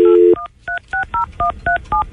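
Telephone keypad tones: a brief steady tone, then seven short, evenly paced dialing beeps, each a clean two-note electronic chirp, loud and alone.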